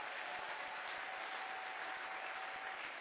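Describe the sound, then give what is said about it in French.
Sustained applause from a church audience acclaiming the Lord: a dense, steady wash of clapping at even loudness for about three seconds, with no speech over it. “Si tu crois, tu acclames très fort le Seigneur, le Dieu d'Israël.”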